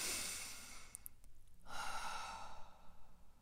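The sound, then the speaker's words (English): Deep breathing shown as a relaxation exercise: a slow, soft breath drawn in and then let out in a long, airy exhale, quiet and without speech. “I kid you not, deep breathing”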